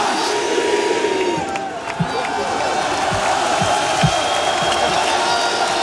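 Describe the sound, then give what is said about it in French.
Crowd cheering and applauding a footballer at the African Ballon d'Or 2025 award celebration, a dense, steady roar of clapping mixed with shouts and whoops that holds loud throughout. “Nous allons maintenant et vous allez pouvoir applaudir celui qui est Ballon d'Or Africa de l'année 2025.”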